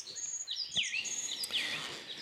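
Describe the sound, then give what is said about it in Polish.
Calls of a small woodpecker: a run of high, thin chirps and sweeping whistled notes, fairly quiet and irregular, with no talking. “Jeszcze podleciał tutaj mały dzięcioł fajny.”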